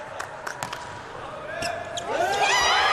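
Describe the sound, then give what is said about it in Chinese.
A volleyball serve strikes for a direct ace in an Italy versus Brazil match. A few sharp ball smacks pop out early, then louder voices swell toward the end. “发球直接得分了。”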